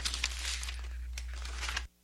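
Paper rustling as a letter is handled and opened: soft, crinkly bursts over a low steady hum that stop abruptly near the end.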